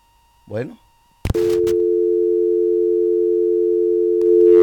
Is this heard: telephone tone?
yes